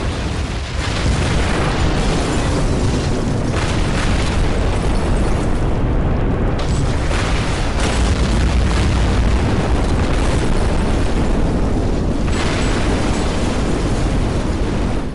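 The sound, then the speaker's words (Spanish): Heavy naval gunfire from British 381 mm guns firing armour-piercing shells at point-blank range with the barrels level, heard as a dense, continuous booming roar that fills the whole clip without clear gaps between shots. “24 estruendosos cañonazos quebraron el silencio reinante.”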